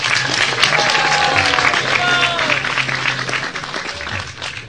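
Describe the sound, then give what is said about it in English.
Audience applause: a dense, sustained round of clapping from a crowd, fading slightly toward the end, with voices heard through it. “You should give her a big round of applause. Давайте поаплодируем ей все вместе.”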